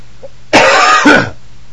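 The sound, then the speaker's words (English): A single loud, harsh cough in two bursts: a long rough burst followed quickly by a shorter one, then silence. “Got me a cough going on here. Sorry about that.”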